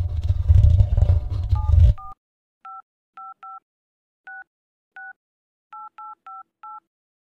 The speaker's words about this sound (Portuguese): Vou ligar e pedir pra alugar.